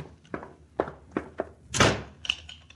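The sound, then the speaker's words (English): A door is slammed shut and locked in a prison. A few dull thunks come first, then one loud slam, followed by a sharper knock. “Now shut that door, you. Quick, or I'll shoot you down. Now lock it and toss me the key.”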